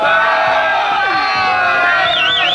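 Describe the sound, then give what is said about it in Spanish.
Football fans cheer and shout in a loud, continuous crowd roar that stays dense and steady throughout, with a high whistle-like tone rising over it near the end. “aplaude la hinchada”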